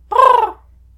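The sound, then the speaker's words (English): A crow gives a single harsh, loud caw, brief and alone against near silence. “A crow lands atop his head.”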